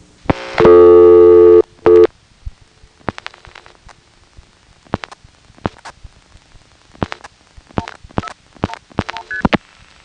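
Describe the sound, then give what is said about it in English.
Telephone line tones on an international call routed via Trinidad to Atlanta in 1980: a loud, steady tone and a brief second tone, then a long run of sharp, irregular clicks on the line. “successfully reached Atlanta inward via Trinidad by dialing 179 and then very quickly 404-121”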